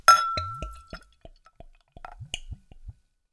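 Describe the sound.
Bottle opener prying the cap off a bottle of Stiegl Grapefruit Radler beer: a brief hiss-like burst, then a scatter of light glassy clinks and small dripping taps, spaced irregularly and fairly quiet.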